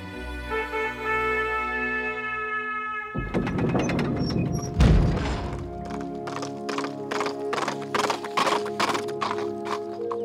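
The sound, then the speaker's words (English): Hoofbeats of a knight's white horse galloping into a courtyard: after a few quiet seconds, many sharp, rhythmic clip-clop strikes begin and carry on steadily to the end. “a strange knight galloped into the courtyard, dressed in a white tunic over silver armor. His steed was white too, pure as milk.”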